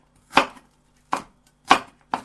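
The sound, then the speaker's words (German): A knife chops Hokkaido pumpkin on a board with four crisp, distinct strokes at uneven intervals. Each is a short dry knock with a brief rattle, and nothing else is heard between the strokes. “Noch kleiner schneiden.”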